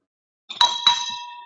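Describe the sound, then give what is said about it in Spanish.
A small celebration bell, rung by a survivor to mark an achievement, gives two quick, bright strikes that ring on and slowly fade; no voices. “y toco la campana cuando tengo otros logros, porque la vida está llena de logros.”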